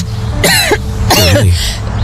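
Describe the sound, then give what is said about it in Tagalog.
Two loud, raspy coughs from a person, each about half a second long with a short pause between them. “Lintik na ubo talaga to.”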